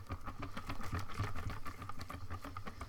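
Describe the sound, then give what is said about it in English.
Liquid batter with flour in it is whisked in a bowl, making a fast, steady, rhythmic tapping and churning. It is fairly faint and continuous, with no talk. “Nice to see that the whisking is coming through stronger than my voice.”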